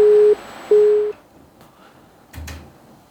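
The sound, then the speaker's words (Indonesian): A telephone call to a radio station failing to connect: two steady low electronic beeps, then near silence broken by a brief clunk. “Masih terputus sampainya, dicoba terus mendengar sampai sekarang.”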